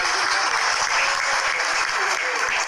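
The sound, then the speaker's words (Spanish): An audience at a school ceremony gives steady, dense applause, a loud, continuous wash of many hands clapping together that holds evenly for the whole clip. “Fuerte los aplausos.”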